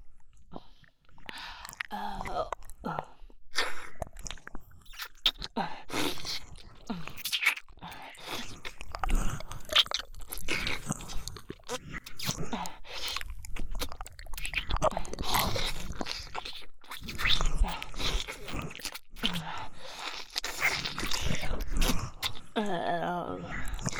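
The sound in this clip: Biting and chewing of food being tasted: many moist crunches and mouth noises over about twenty-four seconds, mixed with whispering and breathy voices throughout.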